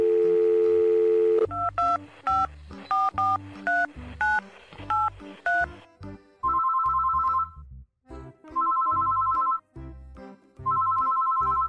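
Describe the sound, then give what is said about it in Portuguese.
A telephone is dialed with a run of short touch-tone beeps, then a call to Portugal rings out as three evenly spaced ringback tones with quiet gaps between them. “Espera. Vou ligar para Merina Dokuski Sesdamauta.”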